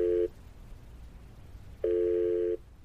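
Telephone line tone during a call being placed: a steady mid-pitched tone in two bursts, the first cut short at the start and a longer one after a pause, with faint hiss in between.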